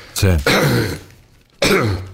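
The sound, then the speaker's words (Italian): Harsh, loud coughing in three bursts: two close together, then a third after a short pause. “Scusami la tosse”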